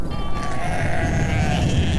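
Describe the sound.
A flock of herders' sheep on a high mountain grassland bleats in a drawn-out, wavering cry over constant low background rumble.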